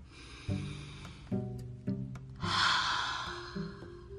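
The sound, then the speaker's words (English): A single slow, deep breath rises out of near silence, set against soft, low musical notes that sound every second or so. “Place a hand over your heart and take a deep breath and breathe.”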